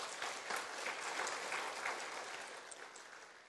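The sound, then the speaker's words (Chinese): A faint round of audience applause at a morning forum in a Buddhist temple, welcoming an abbot: soft, even clapping from a crowd that holds steady, then gradually thins and fades toward the end. “鼓掌，鼓掌”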